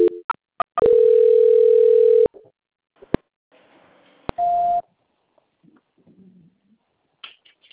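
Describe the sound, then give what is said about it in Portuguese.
A telephone dial tone and dialing beeps play while a call is being transferred: a few short clicks, one long steady tone, then more clicks and a brief second tone. “a senhora aguarda só um minutinho que eu vou transferir para o controle de qualidade, tá bom? É. Só um segundinho, por favor. Ok. Transferência.”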